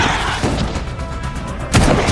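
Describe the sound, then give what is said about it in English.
Gunfire as women lay down covering fire beside a train car in a western-style shootout, a dense rough wash of shots capped by one loud crashing burst near the end. “The ladies give her covering fire.”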